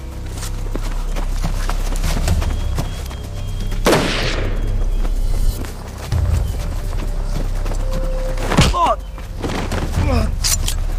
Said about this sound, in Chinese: 班长，快开枪！快开枪！